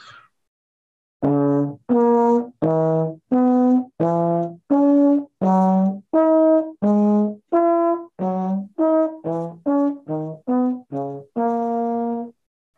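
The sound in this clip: A horn plays a scale in sixths starting from the root. Many detached, evenly paced notes alternate between lower and upper pitches, quickening slightly near the end before a final held note.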